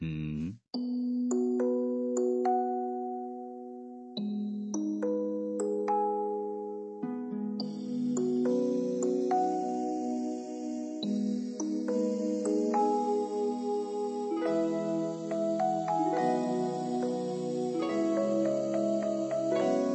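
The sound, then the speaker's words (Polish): A gentle Christmas lullaby about the infant Jesus plays as an instrumental melody of clear, chiming sustained notes, steady and unhurried, with no voices. “Ale dla mojego chrześniaczka już mam taką jezusową kołysankę. Posłuchaj.”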